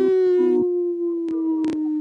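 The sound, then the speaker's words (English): People imitate a wolf howl: a sustained, steady mid-pitched vocal tone rich in overtones carries through the whole short clip, with a few brief breathy bursts layered on top. “Howl! Howl!”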